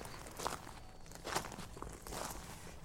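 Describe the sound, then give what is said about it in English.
Faint footsteps of a person walking down a path from a car park toward a spring at a countryside site, a few soft, spaced steps over a quiet outdoor background. “I've just been walking down from the car park”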